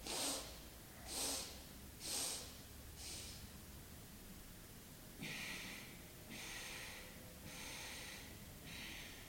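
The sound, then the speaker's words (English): Breathing in four short, sharp broken stages to fill the lungs, then four separate pushes of breath out, with brief pauses between the two groups; breathy, airy bursts alone without talk. “So I filled and emptied my lungs in 4 stages.”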